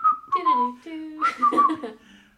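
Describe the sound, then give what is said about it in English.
A person whistles aimlessly without any tune, imitating idle wandering whistling in several short airy phrases whose pitch drifts up and down. The whistling is heard alone, without talk over it. “you all of a sudden you hear her like whistling. Like nothing, not like a specific tune or anything, just like a”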